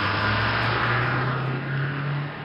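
A bus driving away, its engine a steady, loud low drone with a rough rumble and a humming tone that edges slightly higher in pitch.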